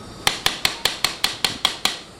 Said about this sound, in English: The tissue pushes back, or the bone pushes back against the implant as you're tapping it in. The pitch changes, so you're listening as well as feeling